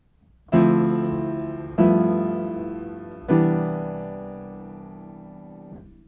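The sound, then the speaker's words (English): A regular harmonic cadence sounds as three sustained chords: each is struck firmly and then rings and decays before the next begins, and the final chord fades out. “So for example, a regular cadence, which sounds like this.”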